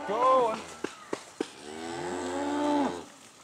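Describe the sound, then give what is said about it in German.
Cattle kept on year-round pasture moo twice, a short low call and then a longer drawn-out one, with three sharp clicks in between. “Normalerweise leben die Rinder eher mit den Menschen als für sie. Sie dürfen das ganze Jahr auf die Weide.”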